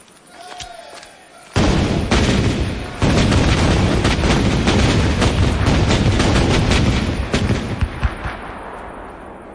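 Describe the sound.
Naval cannon firing a broadside: a sudden loud, sustained roar of overlapping booms and crackling blasts that surges after a quieter start, stays dense for several seconds and then slowly fades.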